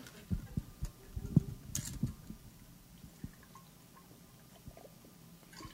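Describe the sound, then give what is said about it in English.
Someone drinking from a glass of water, with faint scattered sips, swallows and small liquid clicks, busier early on and then fading to near quiet. “I need a drink. Excuse me a minute. My throat is so dry I could spit cotton there.”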